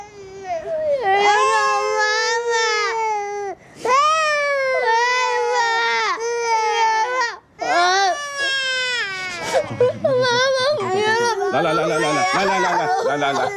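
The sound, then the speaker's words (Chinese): A child cries loudly in long, wailing sobs broken by brief gasps for breath, the pitch swooping up and down throughout; toward the end the crying grows choppier and more broken. “别哭了。”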